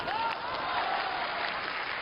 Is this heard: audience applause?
yes